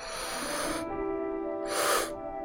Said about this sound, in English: going two big inhales through our nose. And then another little sip of air. And big inhale.